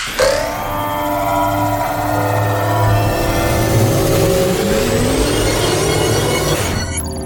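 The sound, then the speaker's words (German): A time-travel app starting up: a dense whirring sci-fi tone that climbs steadily in pitch for about seven seconds, loud and continuous, then cuts off abruptly. “Ich starte die Zeitreise-App. Zeitreise-App ist bereit.”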